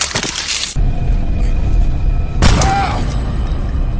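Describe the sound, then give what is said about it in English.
Gunfire from the film Get Rich or Die Tryin', where Curtis Jackson is ambushed and shot repeatedly: a loud opening burst of bangs, then a second heavy crack with a booming low end. “They split up and Curtis Jackson gets ambushed and shot a bunch of times.”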